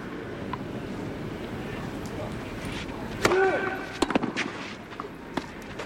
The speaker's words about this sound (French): Et cette fois il l'a claqué, Novak Djokovic, cette volée, il n'a pas hésité, il n'a pas laissé la balle rebondir.